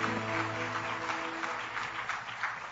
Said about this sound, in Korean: 주님께 영광의 박수 올려드립시다.